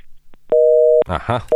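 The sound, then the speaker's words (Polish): A telephone busy signal follows a caller hanging up on a call-in line: a steady mid-pitched tone holds for about half a second, a voice speaks briefly, then the tone returns. “Się ktoś dodzwonił i się rozłączył.”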